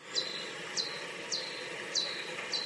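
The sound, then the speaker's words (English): Pipistrellus bat calls, slowed down ten times, come as five short, high-pitched chirps, each sweeping downward, evenly spaced and faint over a light steady hiss, sounding like a small bird's cheeps. “And a different type of bat, a Pipistrellus, has calls which sound like this.”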